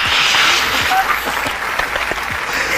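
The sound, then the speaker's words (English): Audience applause welcoming a guest onto a show: a loud, dense, continuous wash of clapping that holds steady for about three seconds. “ladies and gentlemen, boys and girls, put your hands together”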